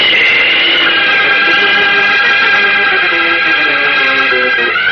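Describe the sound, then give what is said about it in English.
Whoosh of a flying superhero taking off into the sky, a loud steady rushing roar layered with sustained whistling tones, holding level from start to end with nothing else over it. “Then the Man of Steel leaps high into the starry sky and streaks northward, bound for Willow Falls”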